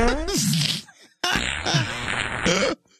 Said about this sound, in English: It's still going. Is that a cow? It doesn't really sound like a fart. It's a long fart. That at least that's what it says in the sound file here.